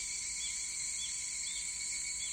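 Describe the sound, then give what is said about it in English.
Cicadas sizzling in a steady, shrill, high-pitched drone that holds at an even level throughout, with a dense, buzzing texture and no voices over it. “The sizzling of the cicadas bores into the rock.”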